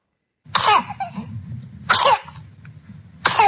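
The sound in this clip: A four-week-old infant with whooping cough coughing in three harsh bursts, with raspy, rattling breathing between them.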